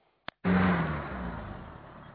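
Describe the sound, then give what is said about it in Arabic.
Tanks storming the village of al-Hamidiyah in Syria's al-Ghab plain in 2012 roar to life just after a sharp click. The heavy engine surges loudly, then slowly eases while still rumbling. “سهل الغاب الحميدية، اقتحام قرية الحميدية دبابات بشار الأسد.”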